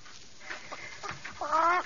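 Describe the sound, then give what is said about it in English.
A fat hen clucks in a few soft, short bursts, then lets out a louder, drawn-out squawking cluck at the end. “She's a fat one. She's doing practically all the things a chicken can do.”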